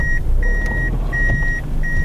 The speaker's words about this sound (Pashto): دا د سړک پر سر خپل تور رنگ فیلډر موټر شاو مخته کوي ترڅو قانوني و دروي.